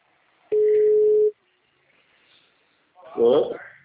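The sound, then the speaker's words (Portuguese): A telephone line tone after a dropped call: one steady, mid-pitched beep lasting under a second. After a pause, a short burst of speech follows. “Oi, a ligação caiu, desculpa.”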